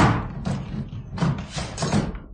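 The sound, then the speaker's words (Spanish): A door panel being broken in and its bolts drawn back: several loud, forceful thuds and bangs with short gaps between them, each impact sharp and full. “Lograron romper un panel de la puerta y descorrieron los pasadores.”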